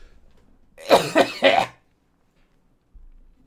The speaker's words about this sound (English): He cleared his throat.